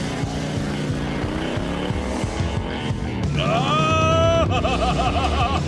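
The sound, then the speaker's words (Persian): A motorcycle engine rumbles low and steady, then revs up into a louder, higher-pitched wavering whine for the last couple of seconds. “برو بشین پشت تا حالا موتور سوار شدی؟”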